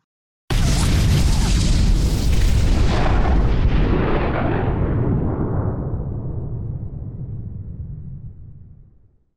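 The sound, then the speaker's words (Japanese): A single massive boom from an atomic bomb explosion over Hiroshima at 8:15 bursts in abruptly, loud and deep, then rolls on as a heavy, sustained low rumble that slowly fades over about nine seconds. “ドーン、大きい音がしました。8時15分、広島に原子爆弾が落とされました。”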